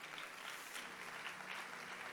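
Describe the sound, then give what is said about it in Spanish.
An audience applauds during a church service: a dense, steady wash of clapping that holds at an even level from start to finish. “¿Cuánto le da un aplauso al Señor?”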